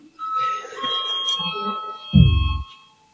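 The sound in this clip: An electric bell rings to call a vote in a parliamentary session, a short buzzing ring of about half a second with rapid rattling pulses, heard after a stretch of faint background noise.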